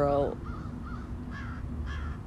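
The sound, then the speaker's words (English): A crow caws from the top branches of a tree. A loud, harsh caw opens, followed by a few fainter, raspy calls spaced over steady background noise. “this crow has landed right in like the top branches of this tree, so I can't see it, but I know y'all can hear it.”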